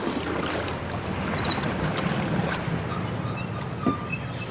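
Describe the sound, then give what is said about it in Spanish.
A boat glides gently over water, with a steady wash of sloshing and rushing water noise that holds an even, moderate level throughout. “Ah, arriba del bote, navegando suavemente.”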